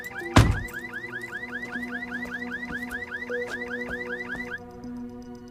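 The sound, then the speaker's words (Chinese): A car alarm sounds with a fast, repeating, rising chirp that runs for many even cycles after a brief loud thump at the start. Near the end the chirping stops and a steadier tone remains. “那警报器是一直在响”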